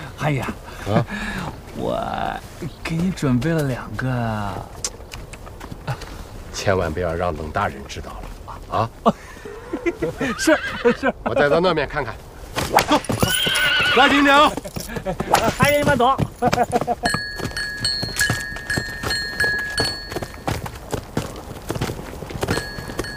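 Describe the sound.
Horses at an equestrian race clatter with hooves and neigh, mixed with loud shouting and talk.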